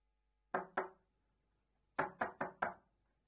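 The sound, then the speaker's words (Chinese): Knocking on an apartment door: two sharp knocks, a pause of about a second, then four more evenly spaced knocks, crisp and fairly loud against a quiet background. “来到那家公寓，小郑敲敲门，”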